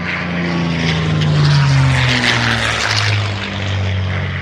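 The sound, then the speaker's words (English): Loud, steady engine roar from an F-16 fighter jet, heard from the cockpit, with a droning tonal hum that shifts slightly in pitch over a broad rushing wash, continuous throughout without pauses. “We can throw numbers and facts and figures at you all day long to tell you what the F-16 is like, but the only way to really understand is to go get in the cockpit.”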